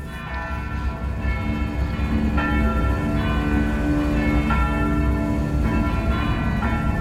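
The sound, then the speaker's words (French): Church bells of a convent in Guernica ringing at full peal as an air-raid alarm, with many overlapping strikes forming a loud, dense and continuous ringing that does not let up. “Il est 16h30, ce 27 avril 1937, lorsque les cloches se mettent à sonner à toute volée.”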